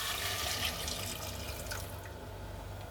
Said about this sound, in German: Und jetzt löschen wir das Ganze ab.